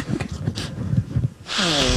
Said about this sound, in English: Your big play that you do about snorting cocaine. Get this down. Man. Cut it this up. Get this nice. Oh, that's a nice rail right